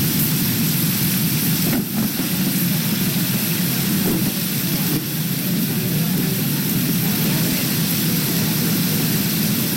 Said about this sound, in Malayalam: ഒരു മഴ സന്ധ്യ അങ്ങനത്തെ ഒരു മോഡലാണ് കേട്ടോ. നല്ല ഇടിമുഴക്കവും